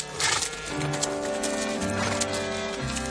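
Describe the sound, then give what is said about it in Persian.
A horse's hooves clip-clop through a street alley in a steady run of light, crisp beats, heard under sustained music tones. “از اسب پایین می آید.”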